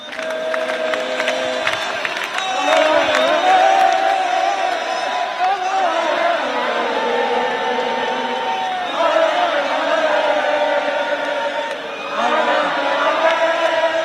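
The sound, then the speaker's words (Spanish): Barça fans celebrate at Canaletas in Barcelona with a loud crowd din of shouts, whoops and cheering that rises and falls in surging waves. “Euforia en Barcelona, como escucháis. Centenares de personas ahora en Canaletas, se van acercando más barcelonistas. Serán miles, seguro, serán miles. Bengalas encendidas”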